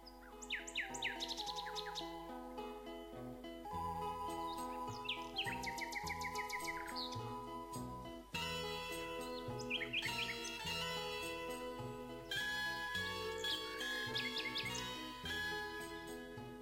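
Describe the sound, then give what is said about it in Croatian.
Nightingale song: a continuous, fairly loud stream of varied melodic phrases, with rapid chirps, trills and whistled notes changing pitch from phrase to phrase. “Slavuj pjeva danju i noću. Umjetnička i melodična pjesma slavuja ostavlja najveći utisak kada se mužjaci takmiče u noćnoj tišini.”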